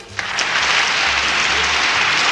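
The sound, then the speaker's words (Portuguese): Applause for a family birthday: dense, steady clapping that stays loud at a near-constant level throughout, with one brief sharper peak near the start. “palmas, palmas, palmas”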